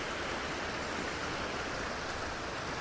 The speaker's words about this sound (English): So the water thunders over, well, I say thunders, it shimmies over a little ford, little bridge